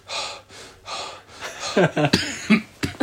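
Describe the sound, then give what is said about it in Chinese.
A person imitates the quick gasping breaths and deep breathing of a climber on a high-altitude trek around Mount Kailash, at roughly 5,000 to 5,600 metres. Several breathy inhales and exhales are followed by sharper, harsher gasps. “就是刚刚那种急促，然后又是深呼吸的，连续的在走。”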